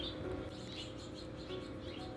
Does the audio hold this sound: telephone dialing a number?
no